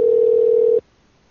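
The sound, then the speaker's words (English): A telephone dial tone sounds after the phone hangs up: a single steady, loud, mid-pitched hum that holds for almost a second and then cuts off abruptly into near silence. “What happened with the phone hanging up over there?”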